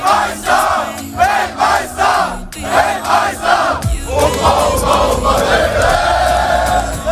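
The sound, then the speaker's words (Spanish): Large crowd of football fans in the streets of New Jersey ahead of a Germany–Ecuador match, loud rhythmic chanting in repeated bursts that gives way to a dense, continuous roar of many voices. “Así suenan a estas horas las calles de Nueva Jersey.”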